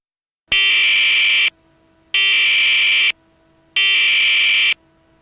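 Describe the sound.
Three long, harsh buzzing blasts of an emergency broadcast test alert tone, each about a second long with short silent gaps, loud and steady with a grating, raspy timbre.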